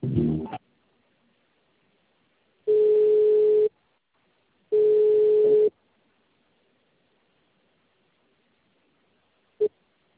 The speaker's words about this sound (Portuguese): Aguarde, estamos transferindo sua ligação.